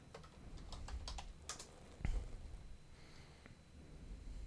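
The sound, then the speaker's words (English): Computer keys click quietly as the word electronic is typed into a search bar on Etsy. A quick, irregular patter of keystrokes ends with a firmer tap. “See if you can just type the word electronic into Etsy search.”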